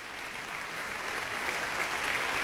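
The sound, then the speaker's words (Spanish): Soft, even applause from a concert audience in the concert hall of Centro Cultural Tlacná, a steady patter of many hands that swells slightly toward the end. “Compañeros también se unen a los aplausos del público reunido el día de hoy en la sala de conciertos del Centro Cultural Tlacná.”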